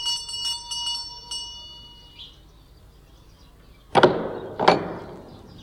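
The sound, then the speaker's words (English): A house doorbell rings with a few bright, clear chiming strikes that ring out and fade. After a pause, two sharp, loud thuds follow. “Now, where do they keep the blasted bell? Ah, yes.”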